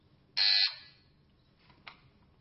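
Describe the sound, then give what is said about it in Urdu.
Quiz show buzzer pressed during a rapid-response round of a verse-completion contest: one loud, harsh electronic buzz lasting about a quarter second, then a faint, very short blip a moment later, with no talking. “اور اب جو مرحلہ ہے اس میں کسی کی کوئی باری نہیں ہے, جو بزر بجائیں گے وہی آگے بڑھیں گے.”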